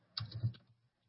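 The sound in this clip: Computer mouse and keyboard clicks while posting messages in an online chat, in a brief, faint cluster of quick taps lasting under half a second, alone.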